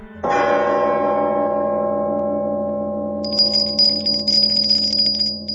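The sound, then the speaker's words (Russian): A doorbell rings on a visitor's third ring: one struck, bell-like tone that sustains. After about three seconds a high, trilling ring joins it, with no talk. “Третий звонок.”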